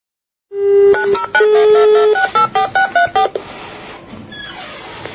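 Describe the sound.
Telephone dialing with DTMF tones: a steady dial tone gives way to a rapid run of many short touch-tone beeps, after which the sound trails off into faint noise.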